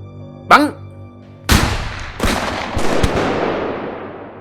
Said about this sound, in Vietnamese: Những tiếng súng CKC vang lên.